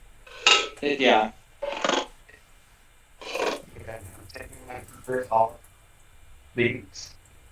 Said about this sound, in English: Okay, bun is toasted. Okay, sorry, give me 1 second. I gotta get my buns out. Are we done with the pan?